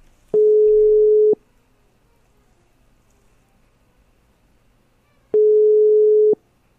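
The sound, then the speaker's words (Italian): Telephone ringing tone while calling a guest: two steady, mid-pitched one-second tones about four seconds apart, alone against near silence. “Riproviamo a chiamare la nostra ospite.”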